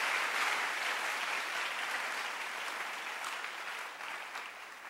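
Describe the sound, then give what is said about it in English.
Church audience clapping, a dense, sustained burst of many hands applauding at an even level, easing slightly toward the end. “Clap your hands for a God who respects himself.”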